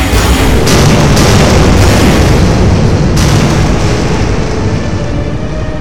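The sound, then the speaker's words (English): Heavy booming blasts as a giant robot fires from its eyes, a loud, continuous low rumble broken by several sharp explosive bursts that slowly fade. “It rumbles a roar and returns fire from its eyes.”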